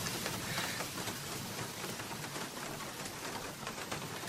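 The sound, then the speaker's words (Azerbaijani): Rain falls steadily in a dense, even hiss of countless drops that stays constant and fairly soft throughout, with no voices. “Gör necə de yağış başladı birdenbire.”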